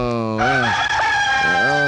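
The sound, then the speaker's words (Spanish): A rain-soaked rooster crows on a wet winter morning: one long, loud, harmonic crow whose pitch rises at the start, wavers, then climbs again toward the end. “Ay, cómo amanecería ese gallo de mojado con este invierno. Y amaneció en paramao el gallo”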